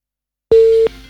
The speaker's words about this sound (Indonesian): Oke, sayang sekali terputus.